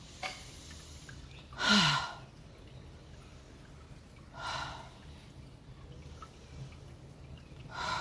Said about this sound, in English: I'm going to take a few nice deep inhales and exhales. Let's take three breaths to integrate this right now.